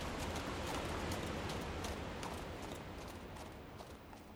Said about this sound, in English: Then we hop on the horses and we head home.